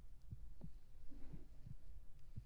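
Soft, low heartbeat thumps, faint and muffled, repeating in a slow, steady rhythm over a quiet hum with no voices.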